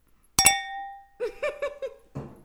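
A single bright clink of glasses touching in a birthday toast. It rings on with a clear tone that slowly decays, followed by a few brief, softer sounds.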